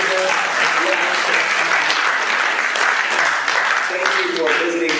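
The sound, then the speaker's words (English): A church audience applauds: dense, steady clapping for the whole stretch, with voices mixed in beneath it. “So CLT, let's give them a great big hand.”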